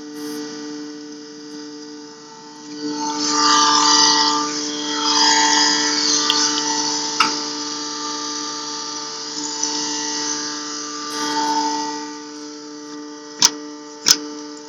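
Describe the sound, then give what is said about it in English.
A Whirlpool Quiet Partner dishwasher runs with its pump going, giving a steady humming drone with tonal whine. A whooshing water hiss swells and fades over it, and two sharp clicks come near the end. “whirlpool, quiet partner for dishwasher, Grand Marais, Minnesota.”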